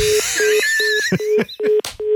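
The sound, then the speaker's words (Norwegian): Telephone dialing tones while calling back, heard as six short, evenly spaced beeps at one steady pitch, with other noisy electronic sounds layered over the series. “Vi må ringe opp igjen.”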